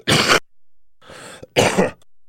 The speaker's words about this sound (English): my cough would start messing with me anytime I talk.